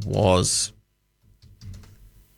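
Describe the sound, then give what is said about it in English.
Computer keyboard typing as a question is entered into an AI, a short run of soft key clicks following a brief spoken voice. “So that's, let me just type this into AI.”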